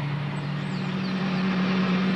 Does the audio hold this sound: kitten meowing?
no